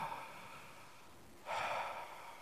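Slow, soft breathing in and out, quiet and airy, with one louder rush of breath near the end.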